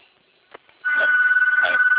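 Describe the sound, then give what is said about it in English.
A telephone on another line rings after a brief quiet moment, a steady, loud warbling electronic tone that continues unbroken to the end. “I'm sorry about the ringing. There's another phone line.”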